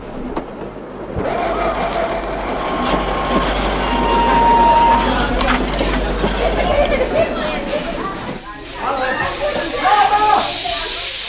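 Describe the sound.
Train approaching a station: a steady, loud rumbling roar with thin squealing wheel tones, easing briefly near the end before rising again.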